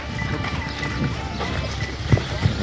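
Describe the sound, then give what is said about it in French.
Horse hooves as a ridden horse is urged into a gallop during a riding lesson: a few soft thudding beats over a steady, busy background. “Hop là, allez au galop. Encore un peu de galop”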